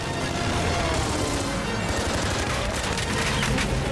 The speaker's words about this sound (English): The fighter rolls to get off another burst as Bond throws the big plane sideways, tipping Camille off her feet. Rounds pepper the inside of the plane.